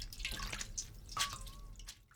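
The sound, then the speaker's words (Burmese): Water drips and trickles from squeezed boiled mustard green leaves, a faint run of small, irregular droplet splashes over a soft background hiss. “အရွက်တွေအေးသွားပြီဆိုလို့ရှိရင်အရင်ကနေစုကင်ပြီးတော့နောက်လက်တစ်ဖက်နဲ့ရေတွေကိုညှစ်လိုက်ပါ”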